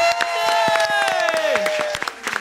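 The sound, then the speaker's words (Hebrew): Applause from a small group: sharp, irregular individual claps scattered across the whole stretch rather than a dense roar, with a sustained voice-like tone running beneath them. “הנה זה קורה, מחיאות כפיים.”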